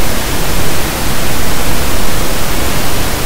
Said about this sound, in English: So pink noise, that pink noise you heard is literally, it's a frequency adjusting noise.